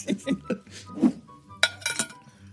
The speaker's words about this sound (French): Bah, la gourde à casse, elle fait du bruit, quoi.